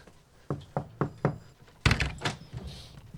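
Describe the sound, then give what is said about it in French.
Four evenly spaced knocks on the door of a home in Gagnac-sur-Serre, each a sharp, moderately loud rap, followed by a louder burst of mixed noise. “Est-ce qu'il y a une cloche? Non, mais on va frapper.”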